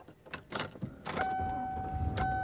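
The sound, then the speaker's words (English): Car sounds as a driver heads home after leaving a church: a few clicks and rattles, then a steady low rumble with a thin, sustained high tone running over it. “And I am driving home.”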